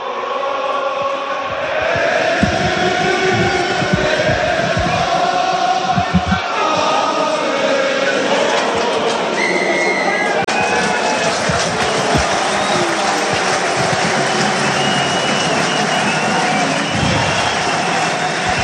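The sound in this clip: A stadium crowd sings the Breton anthem during a match, a dense, sustained wash of massed voices that stays loud and even throughout.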